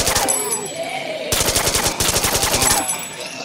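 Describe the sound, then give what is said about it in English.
Continuous gunfire from rapid, automatic-sounding weapons: dense, loud bursts of evenly spaced shots hammer on, broken only by brief shifts between volleys. “Just keep firing! John, this is useless. Just keep firing.”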